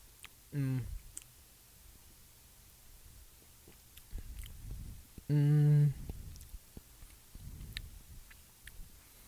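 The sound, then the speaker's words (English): Biting into and chewing food, with soft crunchy chewing noises and scattered sharp clicks, broken by two short voiced murmurs. “Now let me actually take a bite and then swig it with the beer.”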